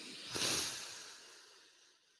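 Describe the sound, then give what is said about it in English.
A deep breath drawn in, a soft airy rush that swells quickly and then slowly tapers away over about two seconds, quiet and alone. “Please take a breath with us. Are you ready? Mm-hmm. I'm ready. Take a deep breath in.”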